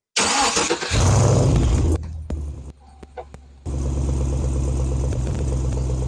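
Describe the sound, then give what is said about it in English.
A V8 engine, from either a 2014 Chevy SS or a 1971 Z28 Camaro with a 383 stroker, cranks and fires into a loud rev, drops to a quieter stretch with a couple of blips, then settles into a steady, deep, rumbling idle. “Which is the best sounding V8? New versus old? 2014 Chevy SS or a 1971 Z28 Camaro with a 383 stroker?”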